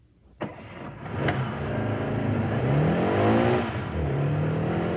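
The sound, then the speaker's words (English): A KGB limousine pulls away: a sharp knock early on, then a loud engine revving with a rising, wavering pitch that holds strong to the end. “Sergeyev watched the KGB limousine pull away and disappear.”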